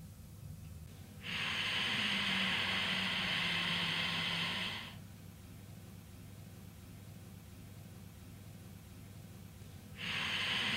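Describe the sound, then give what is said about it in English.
Slow, deliberate breathing during a breath-awareness practice: one long, airy, hissing breath of about three and a half seconds, then a quiet pause, and a second breath starting at the end, with no talking. “listening to the sound the breath is making. Every time you practice, pay attention to the sound of the breath”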